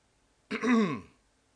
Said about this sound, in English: Let me get a drink so I don't have to keep clearing my throat.